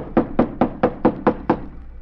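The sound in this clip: Knocking on the stage door of an old, long-unused theater off an alley: seven firm, evenly spaced knocks in a steady rhythm, each a short hollow thud, then quiet.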